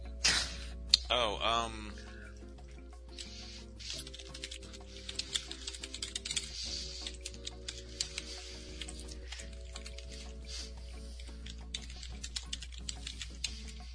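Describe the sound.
Typing on a computer keyboard: many small, irregular clicks and taps over a steady low hum and other faint background sound.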